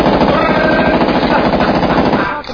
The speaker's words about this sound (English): Now this here is a Steyr AUG. Steyr AUG's a bad motherfucker.